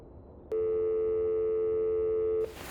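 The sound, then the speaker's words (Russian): A long telephone ringing tone heard in a receiver after a number is dialed: one steady, loud hum of about two seconds that starts and stops abruptly over faint hiss. “Незванов поднял трубку, набрал номер. Долго слушал длинные гудки.”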